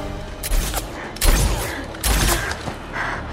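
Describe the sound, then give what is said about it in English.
Gunfire in an alley firefight between soldiers: a few sharp, booming bursts of shots at irregular intervals over a noisy background, with no talk. “She shoots one of the soldiers but hesitates when she sees that the other trooper is Will.”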